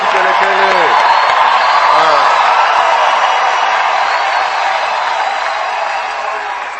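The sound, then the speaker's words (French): A church audience cheers and shouts in acclamation of God, a loud, broad roar of many voices with a few raised, wavering shouts early on, easing gradually toward the end. “Acclamons pour lui d'abord.”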